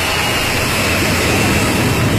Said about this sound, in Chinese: 从无到有，国产大飞机一飞冲天